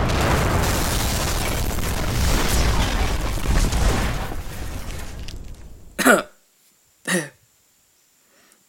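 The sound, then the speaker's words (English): Explosion of cursed thralls in a narrow passage: a loud, dense roar holds for about six seconds, then cuts off abruptly, followed by two short, sharp bursts separated by silence. “If those things blow up in this narrow passage, what? Boom! Everyone get down!”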